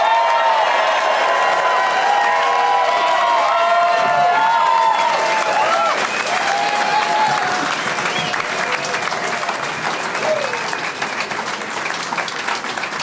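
An audience applauds and cheers as a group of comedians walks onto a stage, a loud, continuous wash of clapping with scattered whoops that carries on for the whole stretch and eases only slightly near the end.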